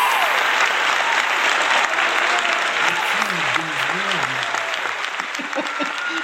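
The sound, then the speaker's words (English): An audience applauds to welcome a speaker on stage. Dense, steady clapping runs throughout at an even level, and a voice speaks over it partway through. “Ladies and gentlemen, please put your hands together and welcome Constance Dierickx.”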